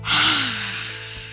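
A sharp inhalation during a face yoga exercise, drawn while scrunching the face: one breathy rush of air that is loudest at the start, then thins and fades over about a second.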